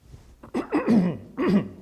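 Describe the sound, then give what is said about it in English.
Someone coughs and clears their throat in a few rough, throaty bursts separated by short pauses, with no speech. “Got a frog in my throat here.”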